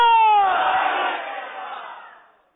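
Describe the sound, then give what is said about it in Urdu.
A studio audience at a quiz competition shouts a slogan together in one loud collective cry. Its voiced pitch drops early on, and the sound then fades out over about two seconds. “آئیے شروع کریں, ذرا جوش کے ساتھ studio گونج پڑے, نعرہ لگائیں فیضان اعلی”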